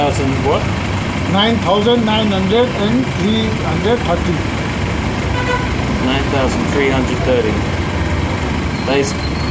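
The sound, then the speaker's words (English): Busy traffic rumbles at a tumble-down gas station on the edge of Kathmandu, Nepal, with engines idling under a steady loud roar and several vehicle horns tooting in short repeated bursts. “I'm in Nepal, more specifically, a tumble-down gas station on the edge of its cramped, chaotic capital city, Kathmandu.”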